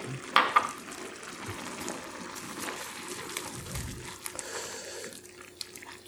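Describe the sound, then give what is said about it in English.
About half a cup of chopped parsley is stirred into a sizzling pan, a soft hiss of frying beneath scraping stirring sounds, with a few sharper clinks and bumps, fairly faint overall. “I'm going to put in my chopped parsley. This is probably about a half a cup. I'm going to mix that in.”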